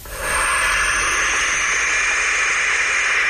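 Barn owl chicks give a loud, continuous breathy hiss, a harsh snorting rasp that holds steady and unbroken for about three seconds with no other sound.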